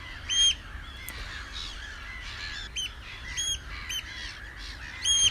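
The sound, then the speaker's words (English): Gulls and terns squabbling at the Minsmere coastal reserve in the evening: many harsh, scratchy calls and sharp cries overlapping in a continuous noisy chorus, with a few louder bursts standing out and no talk. “That's the sound of a load of gulls and a load of terns having a fight, as they always are.”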